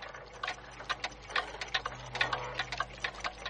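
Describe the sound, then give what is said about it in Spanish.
Several synchronized clocks of different types tick together, giving a dense, overlapping rhythm of many quick, fairly soft ticks over a low steady hum. “Los relojes son de distinto tipo y están sincronizados. Marcan las 7 y 53.”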